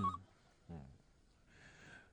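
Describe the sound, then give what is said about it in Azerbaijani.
A telephone rings in a short, buzzy electronic burst near the end, after a brief tone at the start. The ring is fairly faint and no one speaks. “O telefona cavab ver.”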